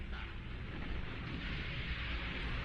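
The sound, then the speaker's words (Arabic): Bombardment of tanks over the Libyan desert in a French war film, heard as a continuous low, rumbling roar that stays fairly faint and even, with no distinct separate blasts. “يتم القصف. ويتم قصف الدبابات”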